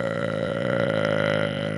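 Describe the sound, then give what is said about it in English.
A loud, drawn-out burp from a man, low and rumbling with a steady tone that holds for nearly two seconds. “disgusting, gluttonous fucking burp. That was fucking gross.”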